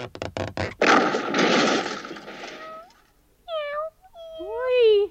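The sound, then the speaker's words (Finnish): A little kitten meows a few times, with thin, high, wavering cries, after a stretch of loud crackling and rustling. “Voi, ihan pikkusta kissan poika.”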